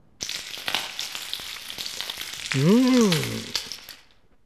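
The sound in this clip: A hamburger frying gives off a continuous crackling sizzle, thick with small spitting pops, at an even, moderate loudness for about four seconds.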